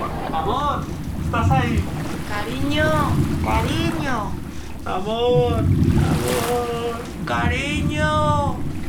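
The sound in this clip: Wind rushes and a low rumble roll steadily as a cruise ship sails slowly with its bow into the wind at sea. People talk continuously over it.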